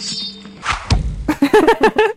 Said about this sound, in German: Nein, das ist ein Messerwurf. Ja, das ist ein Messer, wenn man es wirft und auf den Baumstumpf stecken.